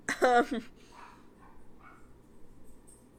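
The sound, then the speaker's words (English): A pet dog gives a short, loud, high-pitched yelping bark at the start, followed by only faint scattered noises for the rest of the moment. “And sorry if you hear my dogs in the background.”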